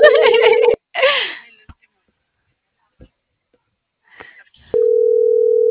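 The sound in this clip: A telephone tone sounds on a call that goes unanswered: a steady, mid-pitched tone runs briefly at the start, gives way to short breathy vocal sounds and near silence, then returns and holds unbroken to the end.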